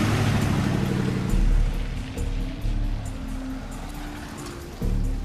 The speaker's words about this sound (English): Renee is driving Zia's black flatbed. She edges down a dark back alley.